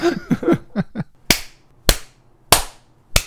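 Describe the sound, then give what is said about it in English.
Four sharp slap sound effects, crisp smacking cracks spaced about half a second apart, following a short burst of vocal sounds at the start. “I'm gonna put a smacking sound in there. Zing.”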